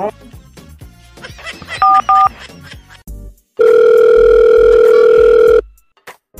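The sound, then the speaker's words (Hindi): Telephone keypad tones and dial tone: two short electronic beeps amid light clatter, then a loud, steady, unbroken tone lasting about two seconds before cutting off. “Phone करो phone करो”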